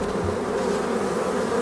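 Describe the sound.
Bees buzzing in a soundscape made with a local beekeeper, a dense continuous drone that holds steady without pauses or voices.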